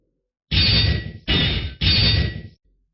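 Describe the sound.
Three loud metallic clangs ring out in quick succession as blows land from a copper plaque, each a broad, harsh crash that sustains briefly before the next cuts in, then silence.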